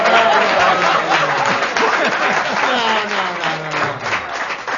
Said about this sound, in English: One of the first standing ovations we've ever gotten.